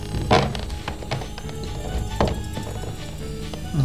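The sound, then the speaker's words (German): Rummaging through a kitchen cupboard: a few dull thunks and wooden knocks among scattered light taps and clatter, heard without talk. “Ich durchsuche mal die Zuckerdose. Mhm. Da ist das Testament ganz bestimmt nicht. Was denn? Aber vielleicht hier im Schrank.”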